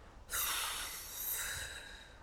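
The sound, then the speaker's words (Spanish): One deep exhalation during a guided breathing exercise: an airy rush of breath that starts abruptly and holds steady for about two seconds. “vamos a regalarnos tres respiraciones desde lo profundo y bien chulas para cerrar. Y vamos a vaciar primero, vamos a empezar con la exhalación, vaciamos nuestro cuerpo.”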